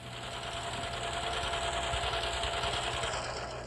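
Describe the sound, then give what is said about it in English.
Sewing on a machine: a steady, even mechanical whir runs without a break, faint and continuous. “I only have a little bit more to sew, and I'll be all finished”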